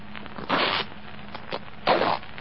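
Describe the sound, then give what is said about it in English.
A jacket's breast-pocket lining is cut open, giving a few short, rasping fabric strokes that are quiet and separated by brief pauses. “Well, cut it. Cut the lining.”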